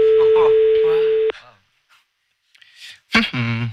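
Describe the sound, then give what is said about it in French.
A steady telephone tone sounds after a number is dialled, holding level for over a second under talk before cutting off abruptly. A short gap follows, then a voice speaks. “Je compose le numéro maintenant pour pouvoir l'avoir.”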